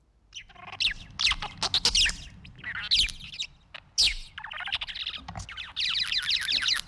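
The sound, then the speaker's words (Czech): A budgerigar calls in a rapid stream of high chirps, squawks and warbled chatter. The calls come loud and almost continuous, broken only by brief pauses. “Podle mě to je andulka. Myslíš, že takhle, takovéhle zvuky vydává andulka?”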